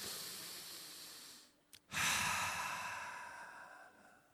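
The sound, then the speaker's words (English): A deep cleansing breath: a long, soft, airy inhale, a short pause, then a stronger exhale that slowly tapers away. It is quiet and heard alone. “Take a big, deep cleansing breath.”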